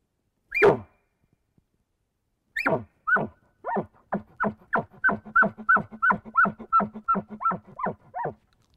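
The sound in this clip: A person imitates a bull elk's bark with one sharp, loud vocal burst. After a pause comes another bark, then a rapid, evenly spaced run of many short, throaty chuckles.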